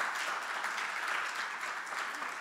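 A church audience applauding together, a steady, dense wash of clapping hands that holds at an even level throughout with no voices standing out.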